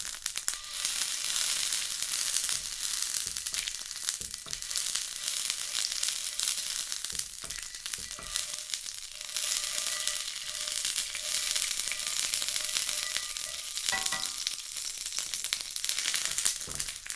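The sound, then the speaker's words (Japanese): Beef tallow sizzles in an iron frying pan, a steady crackling hiss that runs evenly throughout with no talking. “牛脂を使うわ。パテから油も出るし、鉄のフライパンに染み込んだ油もあるから薄くひくだけでいいな。”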